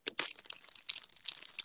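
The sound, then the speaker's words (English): A packet of premium crackers is crinkled open and crunched close to the mic for ASMR: rapid, quiet crackles and crisp snaps follow one another without pause. “Welcome to ASMR with uh, saltine crackers. They aren't saltine; they're premium.”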